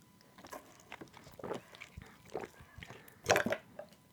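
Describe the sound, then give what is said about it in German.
Someone takes a quick sip of a drink, giving faint wet gulps, swallows and small mouth clicks spread out, with a slightly louder cluster near the end. “Aber ich trinke kurz nebenbei einen Schluck.”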